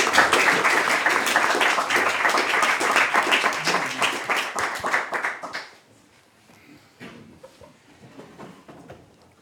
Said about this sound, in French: Je vous demande de l'applaudir. Hein, si vous voulez.